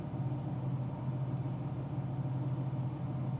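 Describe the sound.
Steady low rumble of a car engine and road noise on a four-hour drive, droning evenly and faintly throughout with no voices.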